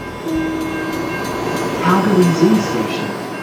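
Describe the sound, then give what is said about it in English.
Calgary's C-Train light rail train at a station: a steady rumble runs throughout, a few tonal horn-like notes sound near the middle, and a voice speaks briefly. “That's the sound of the C-Train, Calgary's light rail transit system”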